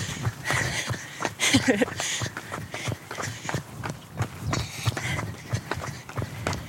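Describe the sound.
Running footsteps as a person takes off from a standing start after a countdown, turning a corner outdoors. Many quick, rhythmic footfalls are heard amid wind-like noise, with voices audible at times.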